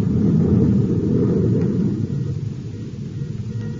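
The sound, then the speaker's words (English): A spaceship engine powering up into star drive: a deep, dense rumbling roar, steady and loud, easing slightly in level partway through, with no voices. “We'll increase velocity and go into star drive now.”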